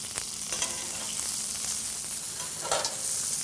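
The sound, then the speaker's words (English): Steak sears in a pan with rosemary and fat, giving a steady, dense sizzle and crackle throughout with no voices. “with this aromatic on top, the aromatic being rosemary in this case, of course it could be a different sturdy herb like thyme or something like that if you want, but that fat is forcing that aroma of the rosemary down into the steak itself.”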